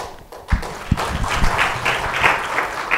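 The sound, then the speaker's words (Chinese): An audience at a church gathering applauds to welcome someone: a few scattered claps open the sound, then it swells into dense, steady clapping that carries on to the end. “我们拍手欢迎。”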